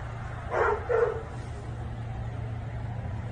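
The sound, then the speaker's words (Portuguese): A distressed dog barks twice in quick succession amid bombing in Palestine, the faint barks rising briefly over a low, steady hum. “Cachorro latindo deixa triste sempre. O cachorro não sabe o que tá acontecendo, só tá desesperado, né?”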